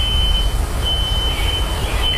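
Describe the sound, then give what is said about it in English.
A smoke detector alarm going off in a row house after a fire spread between houses, a loud, steady, high-pitched electronic tone with brief dropouts over a heavy low rumble. “that right there is a nearby smoke detector still going off this morning in one of the row houses here”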